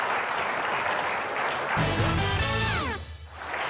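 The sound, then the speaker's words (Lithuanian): An audience applauds returning sports champions: a steady wash of clapping that holds at a moderate level, then dips and thins near the end. “Plojimai dar kartą mūsų čempionams.”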